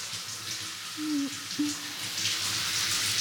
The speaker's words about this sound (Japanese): こうやってお湯で流しながら髪の毛と頭皮を軽く揉んでいきます